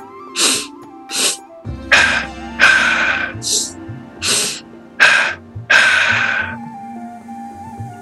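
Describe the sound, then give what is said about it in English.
Pulse breathwork done as a guided breathing exercise: a series of about eight sharp, forceful breaths, some quick snorts through the nose and others longer rushing exhales, in an uneven rhythm over a faint steady hum. “Moving back into that pulse breath.”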